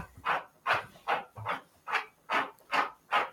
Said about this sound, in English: Right, that's my dog. It's Chance. He's currently scraping at the floor.